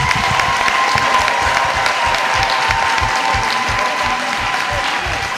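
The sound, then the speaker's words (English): A church audience claps for the Lord in a dense, loud, steady wall of applause that holds at an even level throughout, with crowd voices mixed in. “Amen. Amen. Clap for the Lord.”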